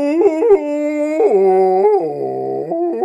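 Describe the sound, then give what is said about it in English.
Whale song sung by Lydia in Beetlejuice to summon an ocean wave: a sustained, wavering vocal tone that swoops and slides between pitches, dipping low near the end before rising again, with no talk over it. “A literal wave from the ocean by singing whale song.”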